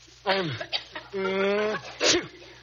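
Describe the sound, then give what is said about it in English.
A man with an allergy sneezes repeatedly: exaggerated voiced wind-ups and sharp bursts, high and almost crowing in tone, with a long drawn-out breath before a final sudden sneeze. “that's not why he's sneezing. He's caught a dreadful allergy. He's been sneezing like this all day.”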